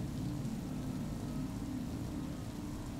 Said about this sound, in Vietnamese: Còn ngoài trời, mưa vẫn ầm ầm trên mái tôn nhà.